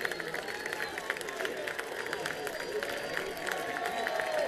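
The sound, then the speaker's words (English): Crowd noise from a big Friday night baseball stadium crowd in Zebulon facing a final strike in the ninth inning, a steady murmuring roar sprinkled with scattered claps and shouts that swells slightly toward the end. “Big Friday night crowd hanging around here in Zebulon for some post-game fireworks, getting into it.”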